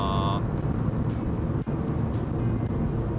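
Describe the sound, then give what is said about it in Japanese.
Steady road and engine drone from a car climbing a long tunnel on a highway with one lane each way, accelerator pressed but unable to reach 100 km/h; an even, continuous low rumble fills the whole clip. “100キロ出ないんだもんこの車。いやこの車っていうか、あの割とアクセル押してるんですけどね、100キロ出ないんだわ。”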